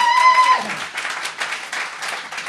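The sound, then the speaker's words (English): A studio audience applauds as a comedy panel walks on, with a brisk burst of clapping from many hands that stays fairly steady for a couple of seconds. “please put your hands together as they come on and welcome Bennett Aaron, Ellis James, Rich Pepiat, and Kate Smurthwaite. Louder than that, come on.”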